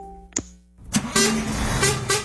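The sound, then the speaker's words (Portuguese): Horn of a road grader honking: a steady tone, a sharp click, then several loud, rough blasts over rumbling noise. “Dá uma buzinada lá”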